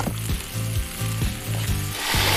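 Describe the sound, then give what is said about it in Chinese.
Loud, steady sizzling as liquid goes into a pan of fish heads fried until browned, with a regular low pulsing running beneath the hiss throughout. “将鱼头煎得焦香，它将带来鲜香的底味。 这一锅精华现在要下下去了啊！”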